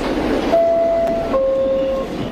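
A subway train riding along, its steady rumbling roar broken by a sustained squealing tone that drops to a second, lower held tone before fading.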